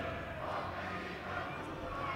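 A crowd in the stands at a Norwegian football cup match makes a faint, steady murmur and roar that runs evenly through the whole moment without clear peaks.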